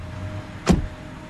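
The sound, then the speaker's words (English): A car moving off and heading round a corner to rejoin a main road, heard as a single brief swelling whoosh that rises and falls over a low, steady rumble. “The car moves off. It heads round a corner to rejoin the main road.”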